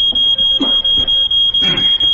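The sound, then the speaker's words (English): A smoke alarm set off by pipe smoke sounds a loud, shrill electronic tone broken into many rapid, evenly spaced beeps that continue throughout, with faint low sounds beneath. “Your pipe set the smoke alarm off. You've got to get up on the chair and press the button now.”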